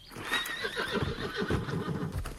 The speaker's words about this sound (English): No! You stupid horse!